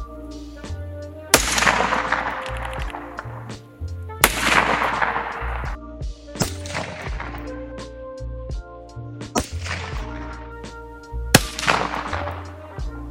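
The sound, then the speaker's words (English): Hunting rifle fired down range: several sharp, loud shots spaced a few seconds apart, each followed by a long decaying rumble. “It is a rifle, and it is a hunting rifle. Now we'll put a couple bullets down range so you can see how that works.”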